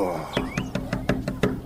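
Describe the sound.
Knocking on the wooden door of a village guest house: a quick, even run of seven sharp raps over a low background hum.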